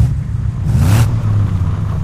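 Engines of a small convoy of three vehicles pulling away in second gear toward an old, shaky bridge: a steady low rumble, briefly swelling brighter near the middle, with no voices.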